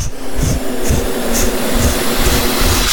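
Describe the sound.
An air pump inflates a makeshift lifeboat made of raincoats stitched together with resin, giving a loud, continuous rushing hiss with a steady motor drone beneath. It runs unbroken throughout, with no talking.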